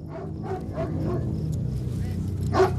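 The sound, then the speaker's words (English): Dogs leading an advancing foot patrol bark a few times in short, fairly faint yelps over a steady low background. One bark near the end stands out louder. “A foot patrol advances, and they're led by vicious dogs.”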